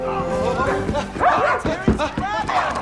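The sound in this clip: A dog barks and yips several times in short, sharp bursts, mixed with voices talking.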